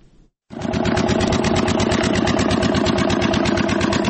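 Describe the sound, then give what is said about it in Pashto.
A generator powering a pipe-making factory in an industrial park in Kandahar starts up after a brief near-silence, then runs as a loud, steady engine drone with a fast, even pulsing rhythm. “لدی جنراتور څخه د پایپ جوړولو د یوې فابریکې لپاره برېښنا برابرېږي.”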